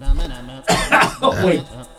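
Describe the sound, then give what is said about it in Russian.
Someone coughs harshly after choking, producing a few rough, throaty bursts in quick succession with short pauses between them. “Извините, я же подавился.”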